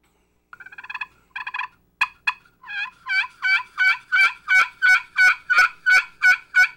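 Rasping, high-pitched yelps from a turkey call made of titanium. Softer, broken notes at first give way to a long, steady run of loud yelps, each rolling high with a raspy end.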